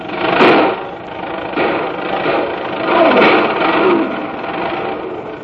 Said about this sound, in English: snorting and backfiring, as though to voice its protest against the tiny little old lady who sits behind the wheel, a high-booted foot rammed down hard on the throttle.